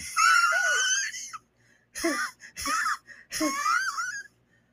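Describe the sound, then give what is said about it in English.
A human voice imitates wheezing, producing a few strained, high, raspy breaths, a longer one first and then several shorter bursts with brief silences between them. “I notice you start wheezing and shit.”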